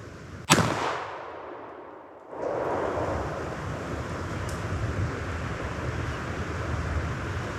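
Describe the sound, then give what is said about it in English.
A single rifle shot during a hunt in the wind: one sharp, loud crack with a quickly fading tail, then a short lull before steady, rumbling wind noise fills the rest. “Yep, we got him. Boy, that was a long shot. That was a good shot.”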